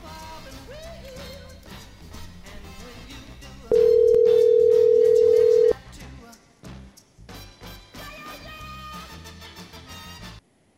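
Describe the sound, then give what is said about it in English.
A single long telephone ringing tone while a cell phone is called, steady and unbroken for about two seconds, sounding over continuous background music. “let's try his cell phone. We'll try a couple of times.”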